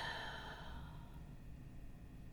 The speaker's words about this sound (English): now I want you to take a deep breath in, hold it, and then exhale.